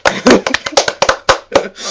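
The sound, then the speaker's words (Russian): Several people clapping for the sponsors of the vodka and snacks at a drinking gathering: a quick, loud burst of irregular claps lasting about two seconds. “Выпиваем, во-первых, водка проспонсирована в этот раз мной, закуска проспонсирована Ваней, так что похлопаем нашим спонсорам.”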